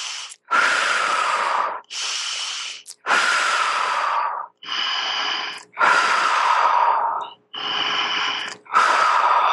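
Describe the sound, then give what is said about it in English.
Several people breathe deeply together as a group, with seven long, loud breaths in and out separated by brief pauses. They come at an even, unhurried pace. “three deep breaths in and out. Puff it out. Let's do the puffing out.”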